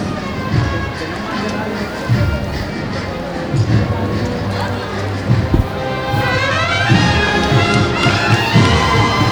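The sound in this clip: Short shuffling steps of bearers carrying a float in a Holy Week procession in Jaén, a steady run of soft scuffs and light thuds, with a crowd murmuring around them.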